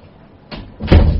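A door is pushed shut, a brief rubbing swish followed by a solid, low thud as it closes, heard alone.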